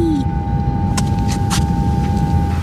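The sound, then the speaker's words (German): An elevator descends with a steady mechanical hum, a constant whine and a low rumble throughout. A few brief hissing bursts cut in partway through. “Ich hole mal den Fahrstuhl. So, einsteigen. Ja, okay. So, ich bin drin. Und nach unten fahren.”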